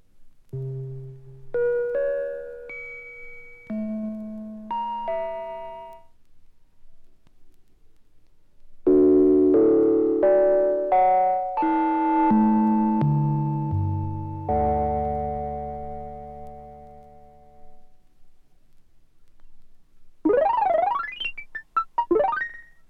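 Electronic sine tones made with a tape-loop technique developed at a Cologne studio, sounding as if played: sequences of pure notes at varied pitches with sharp attacks and decaying tails, building into denser chords, then ending with rapid bell-like warbling tones.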